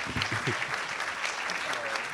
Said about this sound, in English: So everyone, please put your hands together for Trey.